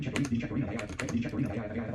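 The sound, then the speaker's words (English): Computer keyboard typing on a Mac Mini setup, with quick, uneven clusters of key clicks while a voice talks over them. “you go to folder and you type in /library”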